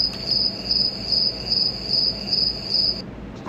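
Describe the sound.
Crickets chirping in a steady, high, shrill trill pulsing in a regular rhythm, alone and fairly loud, before cutting off abruptly shortly before the end.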